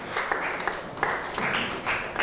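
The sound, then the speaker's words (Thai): Classmates clap in a classroom for a student's answer, producing uneven bursts of hand claps that swell and fade several times. “ปรบมือให้กับเพื่อนหน่อยครับ”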